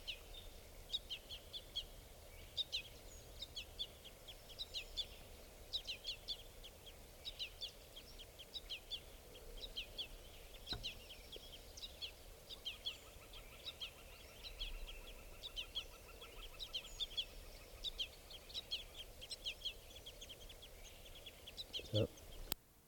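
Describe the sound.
A juvenile bird gives repeated high, thin begging calls in many short chirps at a steady rhythm. The calls stay faint against a constant low background hiss throughout.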